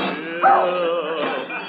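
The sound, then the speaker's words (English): A large, clumsy house dog whines and whimpers indoors near a Christmas tree. One short, wavering, nasal whine is moderately loud, with no talk over it. “Now come on, Tiny, lay down like a nice little doggy.”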